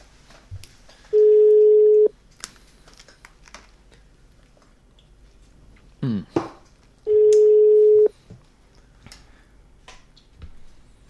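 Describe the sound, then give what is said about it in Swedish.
Telephone ringback tones while a call goes out: two long, steady, mid-pitched tones about six seconds apart, with faint clicks, tapping and a short rustle in the gaps. “Vi ringer Karn i fråga.”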